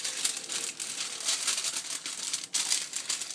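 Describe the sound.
Crinkling and rustling as something is folded up to fit into a space. A steady, faint crackle runs throughout, broken by a brief dip, with no talk.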